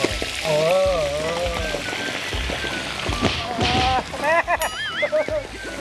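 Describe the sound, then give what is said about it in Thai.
Fish sizzles in a salted frying pan over high heat, a steady crackling hiss with spatters. Voices talk and exclaim over the frying throughout. “โรยเกลือลงไป เวลาทอดปลาจะได้ไม่ติดก้นกระทะ ครับนี่ แล้วก็ใส่ปลาลงไปเลย”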